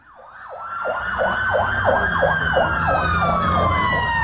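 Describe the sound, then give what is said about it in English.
Emergency vehicle sirens in a city at night, responding to street riots: a loud, fast, repeating wail cycling many times, with a higher, steadier siren tone running over it. The sirens grow louder after the start. “The sound of emergency services in Northern Ireland's biggest city, Belfast, responding to another night of mobs on the rampage.”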